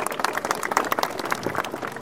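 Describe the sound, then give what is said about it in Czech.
Audience applause at a regional scout council meeting as its chairman steps up, a dense run of many claps holding steady and fairly soft for two seconds, with no clear voices. “To je vždycky milé, že člověk než něco řekne, tak už má potlesk.”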